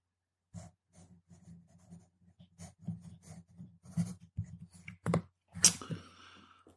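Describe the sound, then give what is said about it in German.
A pen scratches on note paper as a player in a tabletop role-playing game writes down a status word. Faint, irregular strokes come in many short bursts over a low hum and grow sharper toward the end. “Schreibe dir auf dein Notizpapier kränkelnd.”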